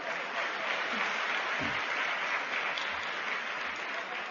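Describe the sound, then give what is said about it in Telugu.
Faint applause from an audience at a Sathya Sai youth gathering, a steady wash of clapping that holds evenly for a few seconds without clear breaks. “Claps పడాలి కదా.”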